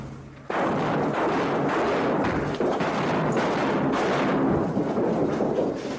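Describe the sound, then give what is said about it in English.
Flashbangs detonating and a wall toppling over: a sudden loud blast, then a sustained heavy rumbling roar of crashing debris that carries on for several seconds. “The flashbangs went off. The wall toppled over.”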